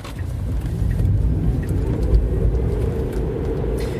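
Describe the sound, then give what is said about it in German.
A car drives on a road in Germany, giving a steady, fairly loud low rumble of road and engine noise that stays even throughout, with no talk. “wir sollten eigentlich mal ein Stück Autobahn fahren.”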